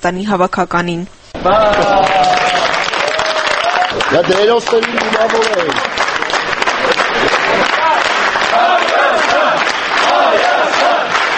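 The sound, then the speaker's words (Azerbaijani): Fans at Yerevan international airport applaud and chant as Armenia's national football team returns from a match against Ireland. Loud, massed voices chant in unison over steady clapping, with a brief, different passage at the start. “Buna baxmayaraq azərkeşlər İrlandiya yığması ilə oyundan qayıdan Ermənistan milli yığmasını Yerevan beynəlxalq aeroportunda alqış və nəğmələrlə qarşıladı.”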